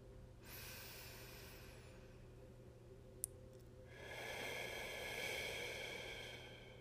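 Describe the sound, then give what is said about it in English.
A deep breath taken slowly and quietly, heard as two faint, hissing breathy swells separated by a short pause, with the second swell slightly stronger and longer; no talk. “everybody take a second to settle in, appreciate where you are, and take a deep breath with me.”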